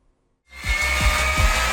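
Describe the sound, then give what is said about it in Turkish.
An electric drill converted into a meat mincer grinding sacrificial meat, starting after a brief silence into a steady whining motor with regular low thumps repeating about three times a second. “Rize'de bir vatandaş krizi fırsata çevirdi. Matkaptan kıyma makinesi yaptı.”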